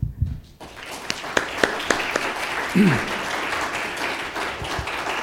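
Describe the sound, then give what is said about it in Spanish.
A church audience applauds during a bilingual Spanish and English sermon. Steady applause is broken by a few sharper claps and thumps, and it carries on after a brief voice. “Give the Lord a hand.”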